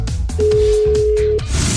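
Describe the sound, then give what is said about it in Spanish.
A telephone line tone during a prank call: one steady, mid-pitched electronic tone lasting about a second over background music. “A ver, estamos marcando, ¿eh?”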